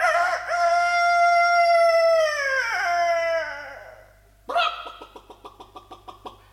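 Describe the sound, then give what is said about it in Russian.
A rooster crowing loudly from a fence: one long, drawn-out, strongly voiced crow whose pitch sags at the end, followed after a short pause by a rapid string of short, pulsing calls that fade gradually. “Чуть только Нильс показался на пороге, петух вспорхнул на изгородь и закричал во весь свой голос”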